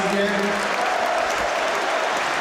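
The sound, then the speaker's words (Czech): Stadium crowd applause for a departing football captain as he is substituted; a steady, dense wash of clapping holds evenly throughout. “Kapitán Vladimír Darida také si teď může poslechnout výrazný potlesk za svůj výkon.”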